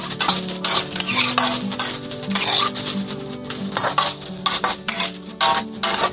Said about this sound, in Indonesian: Oke, kita aduk sampai kecium wangi atau setengah matang ya. Kita aduk-aduk.